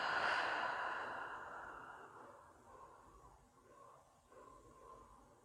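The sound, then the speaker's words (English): Slow breathing in through the nose and out through the mouth: one long, airy, sigh-like breath that starts loud and fades gradually over several seconds, with nothing else around it. “Slowly breathe in through your nose and breathe out through your mouth.”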